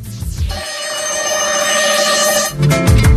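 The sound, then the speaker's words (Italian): An alarm clock rings loudly with a continuous, shrill bell for a few seconds, with brief bursts of other sound at the start and end. “Ma questa era una sveglia, non è?”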